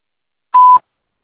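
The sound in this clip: A voicemail beep signalling the start of message recording: one short, steady, mid-pitched electronic tone lasting about a quarter second, clean and loud against silence.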